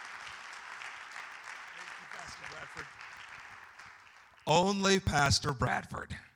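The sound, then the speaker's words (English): Applause from a church audience welcoming its first speaker: steady clapping that fades gradually over about four seconds before a man starts talking. “Put your hands together and welcome Brother Stanley Hopkins, our first speaker.”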